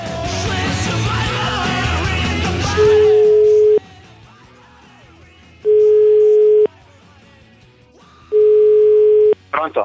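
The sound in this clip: A telephone call's line tone follows a stretch of talk: three steady, mid-pitched tone bursts, each about a second long, separated by short quiet gaps.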